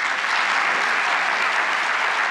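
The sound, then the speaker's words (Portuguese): An audience applauds a government minister with a dense, steady wash of many hands clapping, loud and unbroken from start to finish. “a excelentíssima senhora ministra Gleice Mendonça, também a quem eu peço uma salva de palmas”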